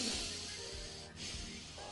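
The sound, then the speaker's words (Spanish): Nasal inhalation with the mouth closed during a breathing exercise: a long, steady hissing draw of air through the nose, briefly interrupted near the middle before continuing. “Cierra la boca, cierra la boca. Y respiro, más. Más.”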